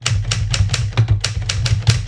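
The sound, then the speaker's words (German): Keys on a heavy old typewriter with several centimetres of key travel strike hard in a quick, uneven series of loud, clacking thumps. “nimmt die 8500 Kilogramm schwere Schreibmaschine und platziert sie am Mikrofon. Ja? So, und jetzt schreiben wir mal Jaffa.”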